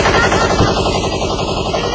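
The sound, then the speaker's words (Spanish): Machine gun fire from a film scene: a loud, rapid, continuous burst of evenly spaced shots that rattles on without a break for the full two seconds. “Y disparaba la metralleta, ¿verdad?”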